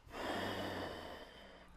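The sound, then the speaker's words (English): A single long breath out during a yoga exercise, soft and airy, swelling quickly and then slowly fading away. “Breathe out.”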